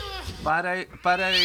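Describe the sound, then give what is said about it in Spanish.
A cat meows twice in drawn-out, nasal, bleat-like calls. The second call is steadier and rises in pitch toward its end. “Apareció el gato.”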